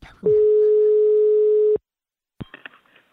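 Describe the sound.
Telephone busy signal on a failed call: a single steady, mid-pitched tone sounds for about a second and a half, cuts off abruptly, and is followed by silence and a few faint clicks.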